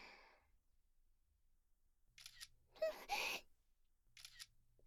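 Camera shutter clicks as photos are taken of a person, a few short crisp bursts spread over about two seconds, fairly faint and with no talk.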